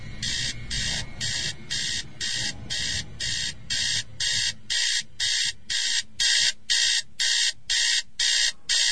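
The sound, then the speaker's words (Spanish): An alarm clock goes off in the early morning at 4:15 in an old house, sounding rapid, evenly spaced, high electronic beeps that repeat steadily throughout, over a low rumble during the first half. “Ah, ¿qué pasa? Maldito despertador, pero si apenas son las 4:15 de la mañana.”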